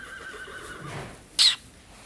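A horse whinnies in a stable, a drawn-out call in the first second, then a short, louder burst about halfway through before it falls quiet. No one speaks.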